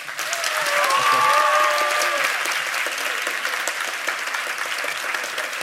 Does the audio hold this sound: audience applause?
yes